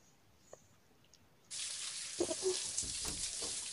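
Shower water switches on abruptly after near silence, then runs as a steady broad hiss with a few soft splashes and knocks underneath.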